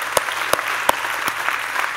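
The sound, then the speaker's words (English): An audience at a church service applauds the praise and worship team with continuous, fairly loud clapping, a few sharper individual claps standing out from the steady wash. “Give them a round of applause because, wow, they deserve it.”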